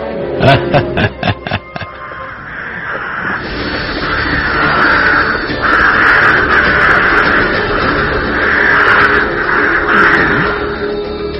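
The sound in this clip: Crows caw at night in a quick series of loud, harsh calls. A long rushing hiss follows and carries on to the end.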